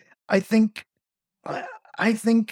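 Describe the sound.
A man, actually a robot husband, gags and chokes, making several short, strained voiced bursts in two clusters with a brief silence between them.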